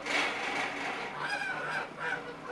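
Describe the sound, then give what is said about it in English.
Geese being force-fed corn through a foot-long iron pipe pushed down their gullets make rough, faint honking and hissing calls over a constant noisy wash. “So this is the noise of geese being force-fed. Basically, the woman who's doing it grabs each goose one by one by the neck, and she sticks a foot-long iron pipe down their gullets.”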